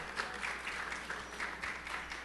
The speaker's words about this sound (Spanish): el público presente le vamos a regalar un fortísimo aplauso